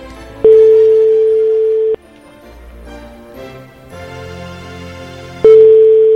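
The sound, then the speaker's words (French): Two long, steady telephone ringing tones sound on an outgoing call from a private number, each lasting about a second and a half. A pause with soft music in the background separates them. “Du coup, on l'appelle et on va essayer de voir si jamais ça sonne.”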